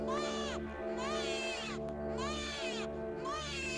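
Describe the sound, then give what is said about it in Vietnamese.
A baby crying in repeated, drawn-out wails that arch up and down in pitch, continuous and eerie, over a steady low droning hum with no pauses between cries. “Tiếng khóc ngày một rõ, cứ văng vẳng đến đáng sợ.”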